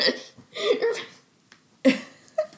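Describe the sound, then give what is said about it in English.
Hiccups from a person: a few abrupt, breathy bursts between softer vocal sounds that resemble laughter. “Do you have the hiccups? Oh, my gosh. I gave you the hiccups.”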